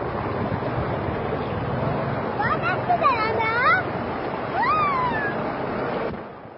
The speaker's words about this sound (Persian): باز شد صدای رود جاجرود، بشنوید پایین سد لطیان.